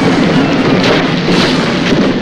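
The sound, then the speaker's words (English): A dragon crashes down a crumbling cliff into a forest. The rumbling roar of breaking rock and impact is dense, loud and continuous, without pauses or talk. “The cliff crumbles beneath its weight and it crashes down into the forest.”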